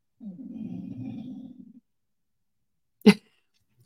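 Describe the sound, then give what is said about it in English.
A dog makes a low, rumbling, groan-like noise lasting over a second. After a pause of silence comes a single short, sharp burst like a snort. “I don't know what that noise is, but I think it's my dog.”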